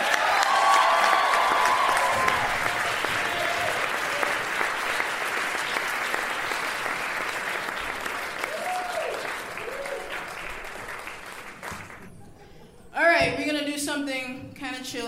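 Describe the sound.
Sustained audience applause with some cheering greets the Pitch Black Brass Band at a live stage show in Brooklyn. The clapping stays loud and steady, then dies down near the end.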